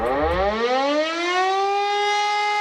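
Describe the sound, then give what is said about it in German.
A civil defence warning siren sounds during a nationwide warning day test in Germany, with sirens across Berlin. The loud wail rises steadily in pitch over the first second, then holds a sustained, even tone with no voices. “heute ist bundesweiter Warntag. Um 11 Uhr werden auch in Berlin alle 420 Sirenen ausgelöst”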